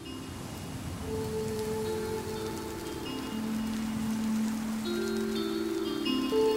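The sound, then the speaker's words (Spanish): Steady rain falls with an even, continuous hiss at moderate volume, with sustained low tones running beneath it throughout. “Y la lluvia parece el eco de mi desolación.”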